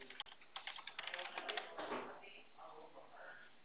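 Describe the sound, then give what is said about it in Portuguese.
Typing a message on WhatsApp: a quick run of light, crisp key clicks at the start, followed by a voice talking. “Eu vou digitar para você lá no seu WhatsApp. Acho que vai ficar melhor para você ver como é que é o nome.”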